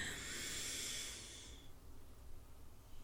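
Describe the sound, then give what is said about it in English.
A single breath drawn in through the nose during a guided breathing exercise, a soft airy hiss lasting about a second and a half before fading into near silence. “And now we're going to inhale through our nose”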